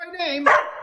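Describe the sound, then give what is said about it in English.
A pet dog gives a single short vocalization: a tonal, whine-like sound that breaks into one sharp bark, loud and alone. “That's my dog.”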